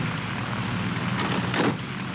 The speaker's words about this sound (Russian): В поле совершает посадку с не до конца выдвинутым с левым шасси истребитель Ла-5 с красными звездами и номером 60 на фюзеляже.